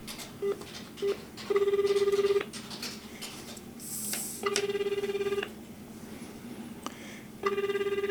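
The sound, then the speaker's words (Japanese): Telephone ringing while calling someone: two short beeps, then three longer trilling ring bursts separated by pauses, fairly loud over a faint background. “樋口さん出るかな出ないかな”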